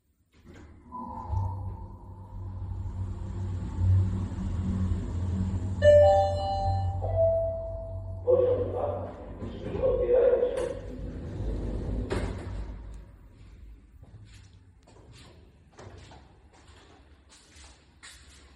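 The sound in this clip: Elevator running with a low, steady mechanical hum throughout, a few tonal chime-like notes near the middle, then fainter clicks and clatter as the hum continues; no voices.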